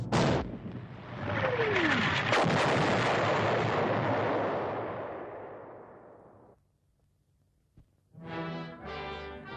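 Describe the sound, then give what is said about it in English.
A rocket-driven bomb plunges at terrific speed toward its target and knifes through steel and concrete: a long, loud roaring blast with a brief falling whistle early on, swelling and then slowly fading over several seconds before cutting off. “As it nears its target, a rocket in the tail ignites. driving it down with such terrific speed it can knife its way through steel and concrete.”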